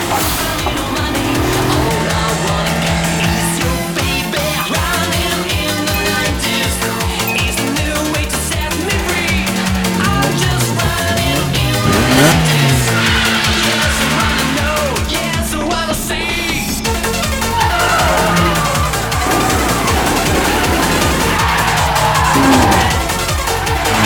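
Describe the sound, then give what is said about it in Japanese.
Tires squeal as a car drifts at full throttle in a four-wheel slide with almost no countersteer. A loud, sustained screech with shifting pitch runs over engine noise for the whole stretch. “そして近くで見ているとまるで芸術だな。あのドリフトは”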